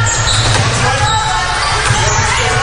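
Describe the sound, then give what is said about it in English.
A basketball is dribbled on the court during a women's game, its dull low thumps mostly buried in loud, steady crowd and arena noise. “Dribbling to the right.”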